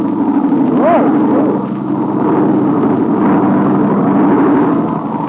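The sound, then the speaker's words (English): A low droning airplane engine as a plane passes right overhead looking for a place to land. The drone is steady and loud, with a wavering, whining pitch. “He's looking for a place to land, so he is. Coming right overhead.”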